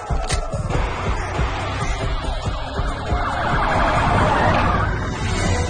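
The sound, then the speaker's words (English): A police car siren wails alongside engine rumble and grows slightly louder as the car approaches, its rising and falling tone steady and prominent. “The police car gets closer.”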